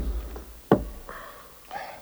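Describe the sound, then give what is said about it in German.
A single sharp knock against a door, one loud, dull thud that stands out briefly from a quiet background, with faint, softer sounds after it. “Und an die Tür anschlagen”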